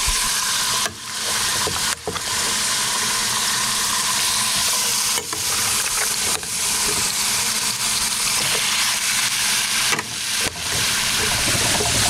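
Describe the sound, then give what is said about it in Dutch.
Meat sears in two large roasting pans after the red wine marinade has been drained off. A loud, continuous sizzle and hiss is broken by a few brief dips as it is stirred, with no voices. “Nu gooi je alles in eh, twee grote braadpannen. Hoe lang eh, bak je het vlees aan? Oh, we gaan het even aanbraden, dat het wat kleur krijgt.”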